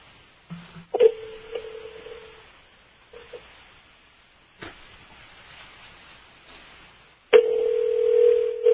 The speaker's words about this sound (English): I've been listening to the old Off the Hook lately, and I've been calling some of the 800 numbers that, you know, you used to dial back in the 90s. So sometimes this is what one of them does.